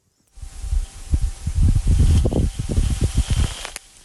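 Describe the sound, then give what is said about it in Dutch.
Recorded wind from a dust storm on Mars, heard as deep, irregular buffeting gusts that rumble in many uneven pulses, much like wind striking an unshielded microphone, fading in and out at the edges. “We laten hem nog een keertje horen. Proberen we nog een keer voor te stellen hoe dat is, een storm op Mars.”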